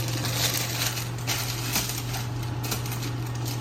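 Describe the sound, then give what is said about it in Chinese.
Dried tofu skin crushed inside a plastic bag by pressing on it with an object, a steady, dense crackling and crinkling that runs without break over a low, constant hum. “这是豆皮，我会把它打碎，打一个这个 塑胶袋，然后把它放到里面。那你就这样把它压，我是随便拿一个东西把它压压碎。”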